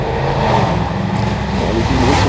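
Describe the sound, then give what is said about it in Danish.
A Porsche engine revving: a steady, loud, low rumbling drone with a gritty growl that holds at a constant level throughout, with no talk over it. “En lille Porsche.”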